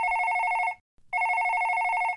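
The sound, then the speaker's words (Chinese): An electronic telephone ring sounds as an incoming call arrives: two bright, warbling ring bursts separated by a short silent pause, fairly loud and heard alone with no talking. “就在刘嘻哈旅行回来的第二天，曹宁宁就突然来电话了。”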